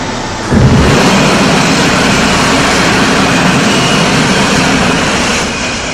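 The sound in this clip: An aircraft landing with a loud, dense engine roar and deep rumble. It surges in after a short start and stays steady and heavy, easing slightly at the end. No voices.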